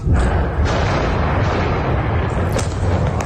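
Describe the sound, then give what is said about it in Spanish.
An Israeli bombardment in the Bekaa Valley of eastern Lebanon: a sustained, heavy rumbling roar with deep booms, punctuated by a couple of sharper bursts toward the end. “Sonido de esos bombardeos.”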